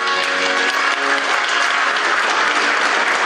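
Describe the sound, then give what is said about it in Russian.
Audience applause for the amateur Russian folk song ensemble Zolotye Planki on its 25th anniversary: dense, steady clapping from many hands, loud and unbroken throughout. “Вот так горячо приветствовали зрители свой любимый коллектив, которому исполнилось 25 лет.”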